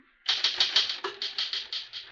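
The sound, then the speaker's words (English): Typing on a typewriter, a brisk, even run of crisp mechanical keystrokes clacking one after another with no pause. “Finish typing it and I'll sign it.”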